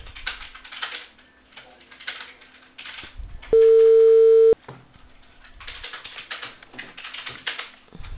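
A single steady telephone line tone, heard while a call is being placed, holds loud and even for about one second, with soft clicking and rustling noises before and after it.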